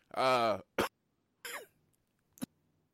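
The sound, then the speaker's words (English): A brief coughing fit: a strained voiced sound comes first, then three sharp, separate coughs spaced across the next two seconds, fairly quiet with silence between them. “that was a bit of a coughing fit, sorry.”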